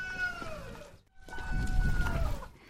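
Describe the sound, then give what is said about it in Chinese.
A rooster crows on a countryside road in two faint, drawn-out calls separated by a brief pause, over a low rumbling background. “走在乡下的路上，时而听到鸡叫声。”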